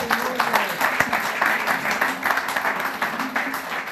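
An audience applauds to welcome a guest, with dense, steady clapping that keeps going at an even level throughout.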